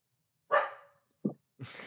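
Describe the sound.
A dog gives three short, fairly faint barks, each separated by silence. The first bark is the fullest, and the last two are brief and clipped.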